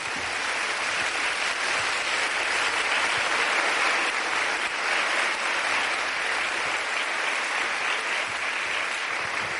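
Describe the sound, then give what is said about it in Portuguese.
Steady applause from an audience at a Catholic sermon: dense, continuous clapping that holds at an even loudness for the whole stretch, with no voices over it. “pode aplaudir, obrigado.”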